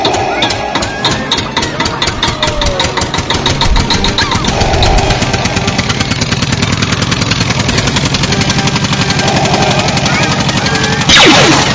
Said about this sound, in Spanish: ¡Pinche carro de mierda! ¡Arranca, güey! ¡Arranca!